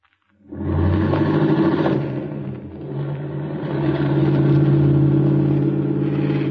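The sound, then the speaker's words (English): A car engine starts up and the car drives off: a sudden mid-pitched rumble kicks in, holds steady, then swells louder toward the end, with no talking. “Slide over. I'll drive.”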